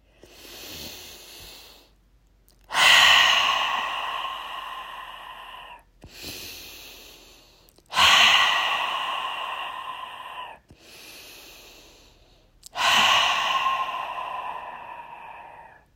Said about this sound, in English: So I want us to take three deep breaths and exhale loudly.